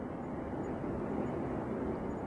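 A steady cabin hum fills a parked airliner as it waits for takeoff. The drone is constant, low and even, with no talk and no change in level.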